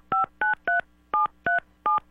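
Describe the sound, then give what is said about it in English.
A telephone number being dialed on a keypad: six crisp DTMF tones, each short and evenly loud, the first three in quick succession and the last three slightly more spaced, with no talking. “since I'm flying solo today, we got to dial the phone on the air here.”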